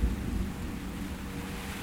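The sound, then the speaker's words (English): Rain falls during a storm as a dense, even hiss with a low rumbling undertone. It is steady and continuous throughout, with no voices. “Listen to the rain. It's okay. Relax your whole body.”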